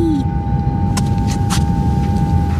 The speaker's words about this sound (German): Ich hole mal den Fahrstuhl. So, einsteigen. Ja, okay. So, ich bin drin. Und nach unten fahren.